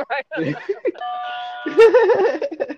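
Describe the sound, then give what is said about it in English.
Doorbell chime ringing, one steady bell-like tone held for under a second between stretches of lively talk. “So I don't know if you heard that doorbell. What was that? Right. That was a doorbell.”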